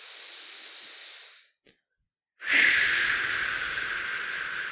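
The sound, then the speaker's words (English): A deep breath taken during a guided mindfulness exercise: a soft, airy breath, about a second of silence, then a stronger, drawn-out breath that slowly tapers. “Once you're here, once you're fully present, if you take a deep breath with me,”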